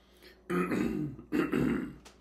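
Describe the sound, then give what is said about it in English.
People clear their throats while tasting: two rough, throaty rasps, each lasting under a second, come after a quiet start, with a short pause between them, at moderate loudness and with no talk over them. “And that's what you hear us doing. We're clearing our throat because you're getting the retro”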